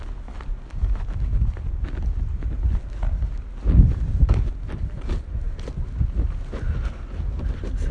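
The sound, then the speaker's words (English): Wind blowing outdoors along quiet back streets, a steady low rumbling buffet with a few sharper gusty bumps, strongest just before the midpoint. “Wind again.”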